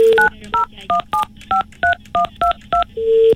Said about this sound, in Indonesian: Live ni kita nak telefon pendengar kita yang bertuah ini.